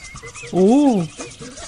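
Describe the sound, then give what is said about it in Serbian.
A monkey gives a single loud, harmonic hoot whose pitch arches up and then down, set among faint scattered background sounds. “Šta se čuje sad? Majmun. Jel da?”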